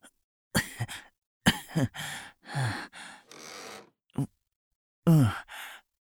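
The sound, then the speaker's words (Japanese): Coughing and sputtering after choking on something that gushed out forcefully: a series of short, harsh bursts and gasping breaths, some with a rough voiced edge, separated by brief silences. “大丈夫。ちょっと勢いがすごかったから、それでむせただけ。”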